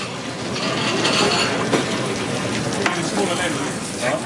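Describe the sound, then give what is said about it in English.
Potatoes fry in a deep fryer for a restaurant dish, giving a loud, constant bubbling sizzle with scattered sharper crackles and pops throughout. “So that goes in the fryer. Just as that's going in the fryer”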